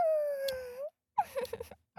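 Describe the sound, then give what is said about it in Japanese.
A human voice imitating a dog's whimper: one long, high whine that holds steady, then a pause and a shorter, broken run of whining yelps. “気持ちいいよってちょっとワンコの鳴き声していいぞ”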